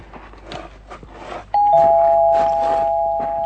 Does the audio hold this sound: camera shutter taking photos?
no